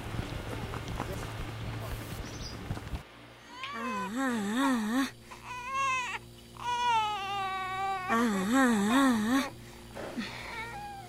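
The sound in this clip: A baby cries in several wailing bursts with a wavering pitch, following a few seconds of noisy, mixed background sound.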